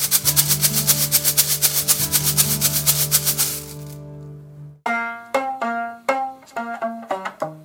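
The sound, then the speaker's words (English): Homemade shaker made from metal tubing with lids taped onto the ends and gravel inside: a dense, steady, loud rattling wash for about four seconds, then a brief pause and a series of separate, sharp shakes with a metallic ring. “One of my favorites is a piece of metal tubing, and I just put lids on the end and use duct tape, and inside is gravel, and it sounds like this.”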